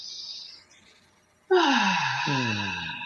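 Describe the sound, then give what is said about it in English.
Deep breath during a guided meditation: a soft airy breath, a pause, then a loud voiced sigh that slides downward in pitch and trails off. “One more deep breath.”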